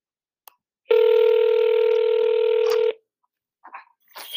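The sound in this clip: Ringback tone of an outgoing phone call while waiting for someone to answer: a single loud, steady electronic buzz lasting about two seconds, preceded by a faint click and followed by brief faint rustles.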